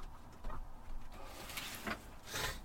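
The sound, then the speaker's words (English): Opening a window, heard as quiet wooden rubbing and scraping with a few short bursts of sliding friction spread across the moment. “I'm going to open a window, sorry. I need some effing fresh air.”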